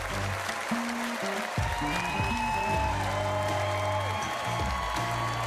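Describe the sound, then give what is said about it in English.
Sustained applause from a crowd giving a standing ovation to a performer on a stage. A steady, even roar of clapping runs throughout at a fairly constant level. “The crowd gives him a standing ovation.”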